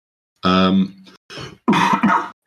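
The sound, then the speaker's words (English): A person coughs during a tabletop role-playing game session: a throaty voiced rasp comes first, then a few harsh, loud coughing bursts separated by short silences. “I apologize for the cough.”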